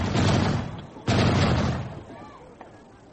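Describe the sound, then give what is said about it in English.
Gunfire shooting at the moon: two heavy booming blasts about a second apart, each followed by a long rumbling decay that fades out, with one faint sharp crack near the end. “Gosh, just look at that. They're shooting at the moon”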